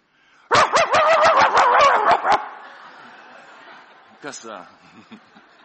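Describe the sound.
A man's voice imitates a pet dog barking: a rapid string of loud, yapping barks lasting about two seconds, followed by quieter, fainter sounds.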